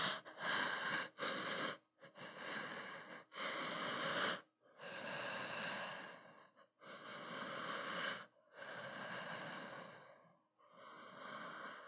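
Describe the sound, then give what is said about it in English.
Slow, heavy breathing: a series of long, loud airy breaths separated by short pauses, each swelling and fading, with no talk. “I understand. I'll breathe slowly.”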